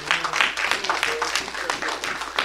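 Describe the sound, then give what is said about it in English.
A church audience clapping hands in praise, a lively run of overlapping claps with some rhythmic pulsing, mixed with voices. “Get a Lord a hand clap of praise.”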